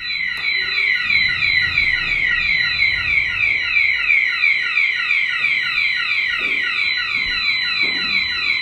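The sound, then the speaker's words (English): A fire alarm goes off inside a hall, a loud, continuous high-pitched electronic warble that repeats in fast sweeping pulses and holds steady at the same level for the whole stretch, with no voices. “we're inside the Temperance Hall and the fire alarm is just going off.”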